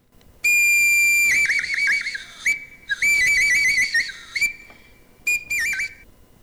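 Shrill, piercing whistle tones from a prehistoric swan bone whistle with a single finger hole, found in caves. A few loud, sustained blasts with wavering, warbling pitch are followed by shorter bursts, with no voices.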